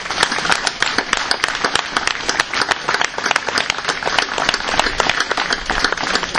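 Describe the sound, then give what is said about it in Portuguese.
Loud, sustained applause from an audience at a political campaign event as a municipal council team is introduced, many hands clapping in a thick, continuous rattle that holds strong throughout. “Eu chamava a Emília Moreira, faz favor, e pedia uma salva de palmas”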